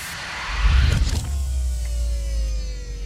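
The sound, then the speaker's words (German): Retracting command bridge in a science-fiction audio drama, rendered as an electric motor whirr: a rushing mechanical surge, then a steady low hum with a thin whine that slowly drops in pitch. “Ich fahre die Kommandobrücke ein.”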